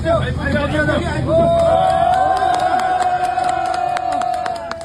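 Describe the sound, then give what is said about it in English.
Crowd noise in Nepal as two workers are rescued from a hydropower tunnel nine days after a flash flood: a dense, continuous din of many voices with scattered shouts, steady throughout. “Now that is the sound of a dramatic moment in Nepal. 2 workers being rescued from a hydro power tunnel there 9 days after the flash flood”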